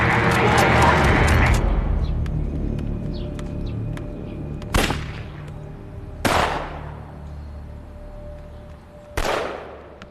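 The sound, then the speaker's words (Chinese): Gunshots ring out from a side street: three sharp, loud cracks at uneven intervals over a dull background rumble. “报告探长，那边小街传来枪声。”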